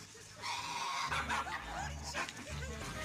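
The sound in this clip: A dog wearing a poncho barks and whimpers, giving a continuous run of yelps and high whines with no clear pauses over a few seconds.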